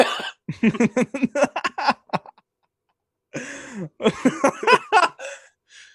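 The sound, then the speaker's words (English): A person coughs on a small peanut caught in the throat: a rapid run of short, voiced, rasping coughs, a pause of about a second, then another similar burst. “Excuse me, I had a small peanut caught in my throat.”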